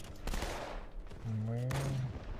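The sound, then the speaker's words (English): Sniper gunfire from the Halo 2 Enhanced Edition video game: a few sharp, loud cracks stand out over a busy bed of in-game noise and tonal effects. “There's a sniper somewhere. Yeah, it just shot me.”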